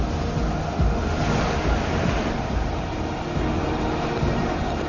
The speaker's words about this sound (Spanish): En el Upper Granite, el segundo bote de la expedición está a punto de recorrer los rápidos con la investigadora jefe Marta Hahn a bordo.